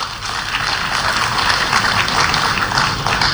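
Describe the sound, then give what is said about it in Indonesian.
Audience applause for the supervisory board at a corporate gathering of the RRI radio network, steady, continuous clapping from many hands that stays loud throughout. “Bapak Ibu, mari kita berikan applause kepada Dewan Pengawas kita.”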